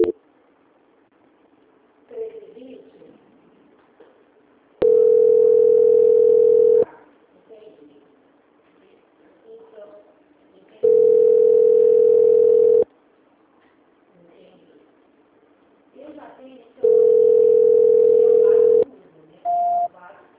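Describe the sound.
A telephone line tone sounds during a call transfer: three long, steady beeps of about two seconds each, spaced several seconds apart, with faint muffled voices and line noise between them and a short final beep at the end.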